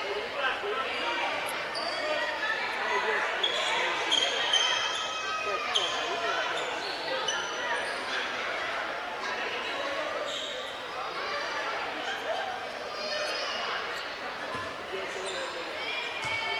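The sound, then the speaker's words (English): A basketball is dribbled at the free throw line before a free throw in a basketball game. Its bounces are steady and fairly faint, with loud, continuous crowd noise throughout. “Here's Billingsley after three dribbles.”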